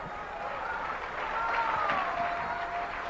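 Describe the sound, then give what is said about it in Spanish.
A church audience applauding during a sermon, a moderate patter of clapping that swells slightly in the middle, with sustained tones held above it. “Denle un aplauso a Cristo, que Él se lo merece.”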